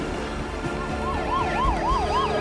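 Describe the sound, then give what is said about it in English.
An ambulance siren wails as it speeds past on a wide, busy street, its steady rising and falling cycles sounding loud over a dense bed of traffic rumble. “As he steps off, an ambulance speeds past.”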